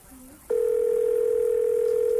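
Telephone dial tone heard when placing a call: a loud, steady, unbroken single-pitch hum starts abruptly about half a second in and holds unchanged to the end, after a brief faint lower tone.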